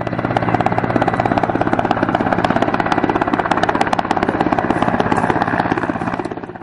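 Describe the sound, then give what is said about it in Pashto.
Apache military helicopters circle over the central areas of Lashkar Gah near Bost airfield, their loud, steady rotor thump pulsing rapidly throughout, with a slight fade at the very end. “د بوس هوایي ډګر په څنډو کې د میشتو بهرنیو ځواکونو او پاچې هلیکوپټر ساتونه کیږي چې د ښار پر مرکزي سیمو باندې ګرځي.”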